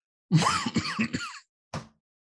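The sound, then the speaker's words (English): A cough from someone with a cold: a rough, throaty clearing lasting about a second, then a short, sharp cough burst after a brief pause. “I've got a damn cold or something. It's driving me up the wall. It's like every time I get into a rhythm, I got this stupid cough.”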